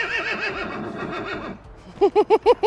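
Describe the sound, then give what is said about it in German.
A Welsh pony at a children's zoo whinnies in a long, quavering, high-pitched call, then follows it with a quick run of five short, pulsed bursts. “Das ist jetzt der Wilko. Das ist ein Welschpony, der hier im Kinderzoll wohnt.”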